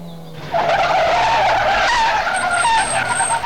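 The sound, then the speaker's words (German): Tyres squeal as a car brakes hard in the street: a sudden loud, sustained shriek that starts after a quiet moment and holds to the end with a wavering, high-pitched whine. “Das Quietschen bremsender Reifen.”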